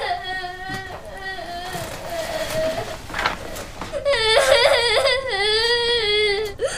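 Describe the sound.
A child cries in loud, wavering wails, sobbing harder and more strained through the second half.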